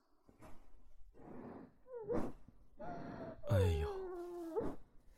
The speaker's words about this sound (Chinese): 妹妹乖，妹妹乖，不哭不哭啊，哥还在呢。